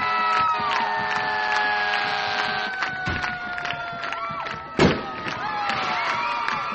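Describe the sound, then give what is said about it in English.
A firework boom at a high school football game: one sharp thump cuts through crowd noise, cheering and sustained horn-like tones late in the game. “And the fireworks are going off here in West Alex.”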